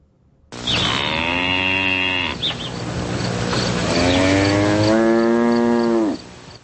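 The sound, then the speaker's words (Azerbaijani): A cow mooing in a meadow, one long, loud, drawn-out low call with a brief break partway through, its tone shifting in the second part before it stops abruptly. “Çəmənlikdə otlaya-otlaya ara bir moğuldayan inək görəndə adamda hansı hisslər oyanır?”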